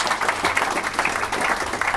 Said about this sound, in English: could you give a round of applause for Colin